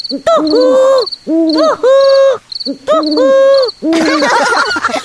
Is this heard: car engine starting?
no